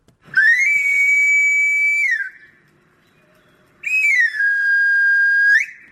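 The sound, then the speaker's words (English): A knife sharpener's whistle in Buenos Aires, played to advertise sharpening services: two long, loud, shrill phrases with a pause between them. The first glides up, holds and drops. The second starts high, slides down, holds, then rises at the end. “the sound of knife sharpeners advertising their services.”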